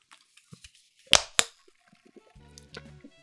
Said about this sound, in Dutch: Goed, dan kan ik nu het blikje kraken.